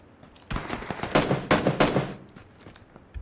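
Gunfire in a shooting video game: a quick series of sharp, fairly faint bursts, densest and loudest in the middle, thinning out toward the end.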